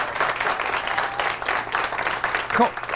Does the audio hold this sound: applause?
yes